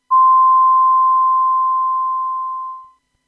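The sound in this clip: A Japanese radio station's hourly time signal marks six o'clock with a single long, steady, pure electronic tone, loud and alone, holding for about three seconds before tapering off.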